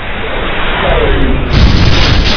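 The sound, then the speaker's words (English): Explosion from a direct hit on a starship during a space battle: a dense, roaring rumble of noise that swells into a heavier, louder low boom about halfway through, then keeps rumbling. “Direct hit. Extensive damage to the engines. Shields are failing.”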